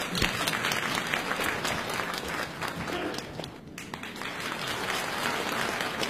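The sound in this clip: Audience applause at a stage variety show, welcoming contestant number three before an improvised crosstalk comedy routine: dense, continuous clapping from a crowd that dips briefly midway and then carries on at full strength.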